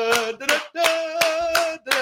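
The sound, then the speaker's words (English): Clapping from a television infomercial, about six sharp bursts in a steady rhythm over a sustained tonal backing. “We're on 30 minutes of nonstop clapping with a little bit of Steve Harvey mixed in between.”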